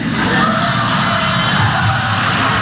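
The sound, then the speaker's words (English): A crowd of progressive supporters at a political speech shouts in offended reaction, with loud overlapping yells and bellows blending into one steady roar throughout. “Now listen to that. He's talking to a bunch of Democrats. The audience are all progressive supporters, and even they were offended. Listen to the audience reaction. Even they're offended.”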